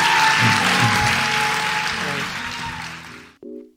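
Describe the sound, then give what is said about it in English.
Loud, sustained applause from a church audience cheering new members, dense clapping that slowly thins and fades before stopping abruptly near the end, followed by a brief faint sound. “Now we can say, welcome to the family of God. Give them a great hand one more time.”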